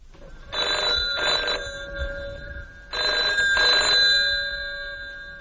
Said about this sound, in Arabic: ما ترد يا بنتي، انت واقفة تتفرجي على التليفون كده ليه؟